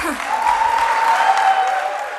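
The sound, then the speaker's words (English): Crowd applause for a standing ovation at a Human Rights Campaign event in 2014: dense, steady clapping that stays loud and even throughout, with a thin sustained tone running through it. “That crowd gave Paige a standing ovation.”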